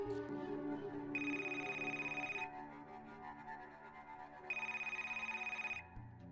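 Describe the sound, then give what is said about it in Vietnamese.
A mobile phone ringing in the middle of the night, two long electronic rings with a steady, piercing high tone over a soft continuous low hum. “Hai giờ 30 sáng, tiếng chuông điện thoại của Duy bất chợt vang lên.”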